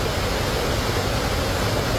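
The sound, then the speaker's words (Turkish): A waterfall in the Çatak district of Van, Turkey, gives a steady, dense rush of roaring water, loud and even throughout, with no other sounds. “Burası Van'ın Çatak ilçesinde bulunan Kanispi Şelalesi.”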